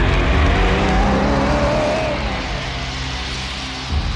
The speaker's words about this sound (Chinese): 黑木斯说完，开车走了。